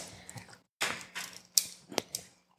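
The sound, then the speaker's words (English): Shaving the uncut end of a cigar produces a few faint, dry scraping strokes, short rasping bursts with brief gaps between them and a couple of sharper ticks, with no talking. “I'm going to just shave it. I'm going to shave it so I can get a little bit of a draw”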